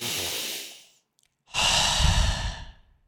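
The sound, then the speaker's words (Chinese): Two long, airy breaths of deep breathing, separated by a short silent pause; the first trails off gently and the second is fuller and louder. “给自己三个深呼吸的时间，大概十秒钟。”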